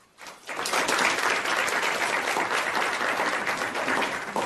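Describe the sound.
Applause welcoming a medical researcher presenting work on chemotherapy-related hospitalizations. It breaks in after a moment of near-quiet, swells quickly and then holds as a steady, even clatter of many hands.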